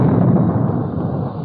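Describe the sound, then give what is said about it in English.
A single massive roaring blast from the 16-inch guns of the battleship Missouri, firing off the east coast of North Korea. The deep, broad boom stays loud and dense through about one and a half seconds. “The blast of sound you hear comes from the 16-inch guns of the Big Mole, the battleship Missouri.”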